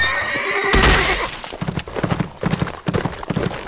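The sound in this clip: Horses of an approaching four-man Mexican patrol: a whinny rings out early, then steady, uneven hoof clip-clop carries on through the rest.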